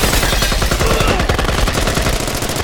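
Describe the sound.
Rapid automatic gunfire aimed at a searchlight, a loud, dense, unbroken burst of quick shots running the whole length with no pauses or voices.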